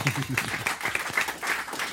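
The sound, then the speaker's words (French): Audience applause, a steady wash of clapping from a crowd at a live event, with voices talking over it throughout. “Ça s'applaudit.”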